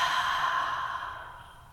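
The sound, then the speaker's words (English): A deep exhale comes out as a long, breathy sigh that starts strong and steadily fades over just under two seconds, with no voices. “So inhale deeply, gather up everything there is about this moment. And with an exhale,”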